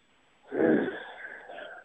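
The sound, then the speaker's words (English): A person lets out a breathy groan while pondering a hockey question: one drawn-out, low, rough exhale that swells quickly and then slowly tapers away. It is heard alone, with no speech. “when I pause and groan for a second, it means that it's another good one, because I'm pondering it.”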